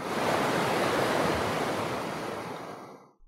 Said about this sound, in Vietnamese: Bên trong hồ lô, một hồi âm thanh như là tiếng nước sông lớn chảy nhanh vang lên.